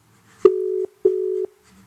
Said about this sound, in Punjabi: ਚੱਕਿਆ ਨਹੀਂ ਮੁੰਡੇ ਨੇ ਫੋਨ, ਦੁਬਾਰਾ ਕਰੀਏ।